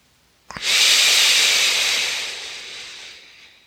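A deep exhale during a belly-breathing exercise: one long, forceful, breathy rush of air that starts abruptly and then tapers off gradually over about three seconds.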